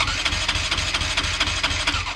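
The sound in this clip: Engine of a Moriwaki racing motorcycle built only for racing, idling with a steady low, rapid throbbing pulse over a dense mechanical rumble and hiss.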